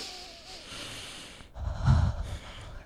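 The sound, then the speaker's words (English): A person takes a deep breath, heard as one soft, breathy rush of air that swells in the second half after a quiet start. “So I start to speak a little faster, so I need to take a few deep breaths.”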